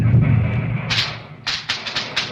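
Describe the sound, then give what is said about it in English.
Fireworks going off as a burst of several sharp, loud cracks and pops in quick succession over a low, rumbling background. “What's that? The fireworks! The fireworks!”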